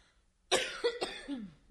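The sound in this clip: Coughing from a dry, scratchy throat: one sharp burst followed by a few weaker, rasping coughs, fairly faint and with no talk.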